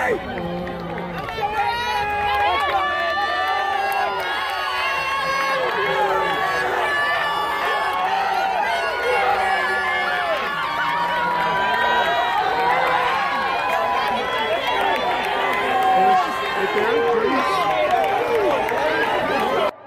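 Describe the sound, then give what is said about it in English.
Continuous patter of footsteps as a crowd of about 200 runners passes by in a race, blended with steady crowd chatter and scattered cheering voices. “So like 200 runners just went by you right there.”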